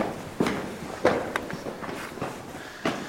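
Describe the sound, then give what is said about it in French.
Footsteps climbing a short series of stairs underground: a few faint, irregular scuffing steps with soft thuds and no voices. “On attaque la remontée. Petite série d'escaliers.”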